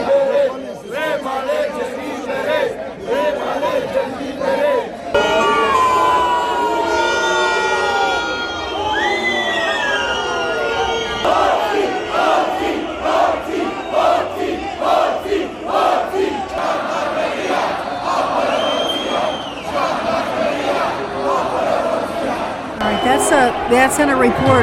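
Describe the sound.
A large protest crowd fills the streets of Romania with loud, continuous shouting and cheering, many voices overlapping in rising and falling waves for the whole stretch.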